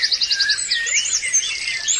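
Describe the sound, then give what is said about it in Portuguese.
Birds chirping and singing: a dense run of rapid, high, bright chirps and trills that overlap continuously, with no voices. “O dia foi passando, a passarinhada falando, piando, cantando, sem decidir nada.”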